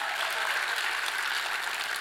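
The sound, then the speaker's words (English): A church audience clapping together, a soft, steady wash of many hands with a low, constant hum beneath. “Come on, if you're going to clap, do it well.”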